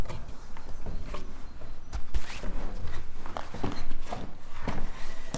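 Footsteps walking back down a staircase, a series of uneven thudding steps with scuffs and a few sharper knocks, fairly loud and continuous.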